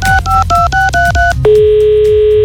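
Telephone keypad dialing for an outgoing call: a rapid run of six two-tone beeps, then a steady, sustained call tone that holds to the end.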